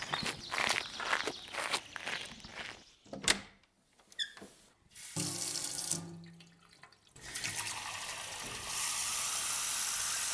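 A boy's footsteps walking during the first few seconds, then water running steadily from a tap, a dense, even rush that carries on to the end.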